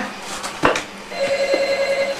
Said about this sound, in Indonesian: Telepon, Dek.